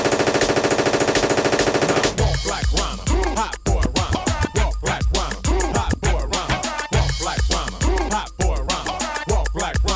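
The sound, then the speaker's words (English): Machine gun fire rattles in loud, dense rapid bursts separated by brief gaps, following a short sustained tonal buzz at the very start. “Shoot your guns in the air. Three times in the air. Shoot your guns in the air. Machine gun.”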